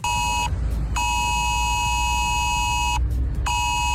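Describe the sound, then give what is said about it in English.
A mobile phone emergency alert tone for warnings such as extreme weather: a loud, harsh, buzzing steady tone in long pulses broken by short gaps, over a low rumbling background. “Ireland could be getting an emergency warning system which would warn us about things like extreme weather on our phones.”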